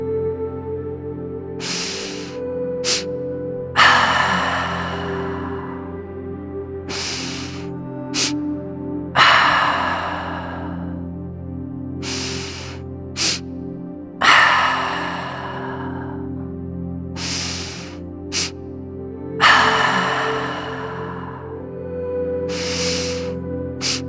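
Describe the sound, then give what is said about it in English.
Deep rhythmic breathing in a guided exercise: about four slow cycles, each a short sharp intake followed by a long, loud, hissing exhale, with quieter pauses between them. “Let's breathe together like that for 10 cycles. So just follow along with me.”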